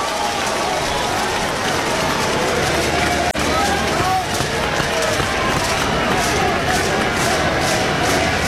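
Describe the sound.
Oklahoma Sooners baseball fans cheer in a stadium during a full-count at-bat, a steady, dense crowd roar that holds at a loud, even level throughout with no break.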